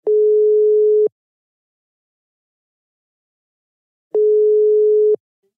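Telephone ringback tone on an outgoing call: two long, steady, mid-pitched tones, each about a second, separated by a long silence, loud and clear with no talk.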